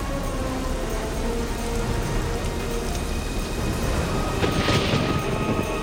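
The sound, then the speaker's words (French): Steady rain falls in a dense, continuous hiss that stays even throughout, with a slightly brighter, louder wash of drops near the end. “Il fait même tomber la pluie sur les montagnes, par-delà les frontières du pays.”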